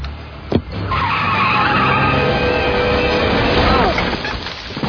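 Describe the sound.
A car drives with its tires skidding in one long, loud squeal of about three seconds over engine noise. A sharp bang comes just before the skid begins.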